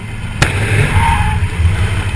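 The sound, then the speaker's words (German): A side airbag suddenly bursts open in a car driving at about 50 km/h with no accident: one sharp bang early on over a continuous low road rumble that carries on afterward. “Ja, und dann tätscht plötzlich der Airbag auf. Ohne Unfall, einfach so.”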